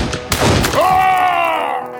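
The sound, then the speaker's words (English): A sawed-off shotgun fires both barrels of buckshot in a bar: one sharp, loud blast followed by a long, rumbling, ringing tail that slowly fades. “He whirled around, cocking the sawed-off shotgun as he turned. Val had pulled his second 45 and was struggling to jack back the hammer when Frank pulled the triggers.”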